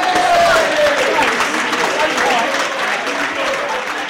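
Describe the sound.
Audience applause at a live show, greeting someone called up from table one, dense and sustained clapping with crowd noise, loud at first and easing slightly toward the end.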